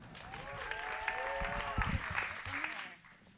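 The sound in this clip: Audience applause welcomes a performer onto the stage at a live show, a steady wash of clapping with some cheering voices that holds for nearly three seconds before thinning out at the end.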